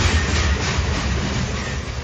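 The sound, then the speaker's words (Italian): A regional train pulls into a station platform with a steady, loud rumble and hiss. A low throb runs beneath it, continuous and even throughout, with no voices. “regionale 55-60 di Trenitalia, proveniente da Rovigo, è diretto a Verona Porta Nuova, delle ore 5.32, è in arrivo al binario 1.”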